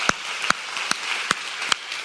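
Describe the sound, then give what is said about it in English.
Applause from a church audience welcoming its home campus in Whiteville, North Carolina: a steady wash of clapping with five sharp, evenly spaced claps standing out above it. “Want to welcome my home campus back in Whiteville, North Carolina. Let's give them a round this morning.”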